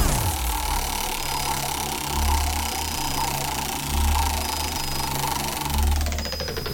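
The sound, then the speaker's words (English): Spinning-wheel sound effect: a loud, continuous mechanical whirring rumble with a slow, regular, low throbbing pulse that repeats a few times. No voices are heard. “Let's go ahead and spin that way back wheel one more time.”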